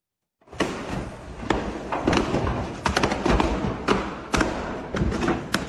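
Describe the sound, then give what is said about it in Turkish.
Explosions during a fire at a furniture shop in Buca, İzmir: a series of sharp, loud bangs and thuds at uneven intervals over a dense, noisy background that continues between them. “Önce alevler, ardından patlama sesleri.”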